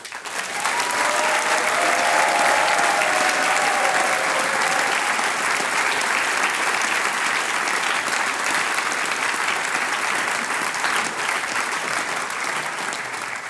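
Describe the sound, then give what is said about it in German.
Applause from the audience at a family folk singers' and musicians' gathering as the host family band is welcomed on stage, a dense, steady clapping that stays strong and even from start to finish. “Und die bekommen einmal einen extra Applaus, weil diese Familie wird nicht müde, jedes Jahr ein wunderbares Sänger-Musikantentreffen auf die Bühne und auf die Beine zu stellen.”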